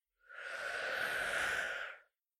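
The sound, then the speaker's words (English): One long, smooth breath drawn in during a guided calming affirmation exercise, a soft airy rush that swells, holds for nearly two seconds and then fades, with no other sound around it. “Breathe in.”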